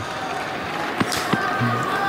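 A tennis ball bounces twice on the court before a serve in a Grand Slam match, two dull, soft thuds over a steady crowd murmur.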